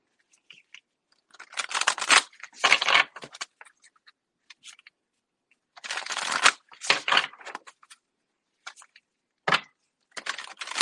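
Moon oracle cards are shuffled in several short, crisp bursts of papery riffling, separated by stretches of silence, fairly faint and with no talk over them.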